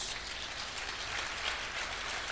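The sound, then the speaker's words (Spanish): Congregation applauding at a church service, a faint and even patter of many hands clapping, like a fine crackle that holds steady for about two seconds with no voices over it. “Alguien dele un aplauso a Jesús.”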